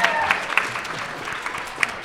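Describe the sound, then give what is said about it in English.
Audience applause thanks the guests and crowd at the end of a live show: a continuous, moderately loud spread of clapping hands, with a few sharper individual claps standing out. “give you all a round of applause”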